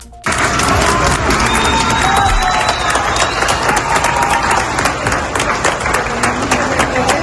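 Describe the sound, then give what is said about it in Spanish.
Applause breaks out abruptly and stays dense and loud as Spanish emergency rescue teams from Madrid and Badajoz, back from earthquake relief work, are welcomed at Valencia airport in Carabobo, Venezuela, with a faint cheer above the clapping. “A los equipos de emergencias los esperan entre aplausos y lágrimas después de haber visto de primera mano la devastación que ha dejado el doble terremoto en Venezuela.”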